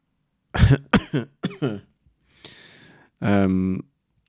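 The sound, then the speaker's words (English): A person coughs in a quick series of four sharp, loud bursts, followed by a soft breathy exhale and then a short voiced groan, with no speech. “I was going to laugh and then I coughed instead.”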